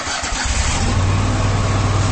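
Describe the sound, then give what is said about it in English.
Engine of a Kubota Commander zero-turn lawn mower cranks briefly, then catches and settles into a loud, steady, low rumbling idle that continues to the end. “That's the sound of the Commander, Kubota's top-selling zero-turn mower.”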